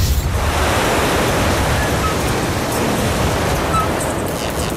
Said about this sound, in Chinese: 对，这风太大了。